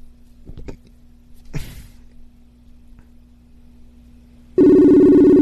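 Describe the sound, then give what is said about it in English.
Phone call ringing while waiting for someone to pick up: a few faint clicks and a brief swoosh over a low hum, then a loud, steady electronic ring begins abruptly and holds to the end. “Let me call her. See if she'll pick up.”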